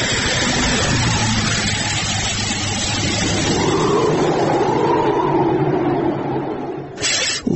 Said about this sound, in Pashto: یوه لارۍ خو راغله، همدا لارۍ ته به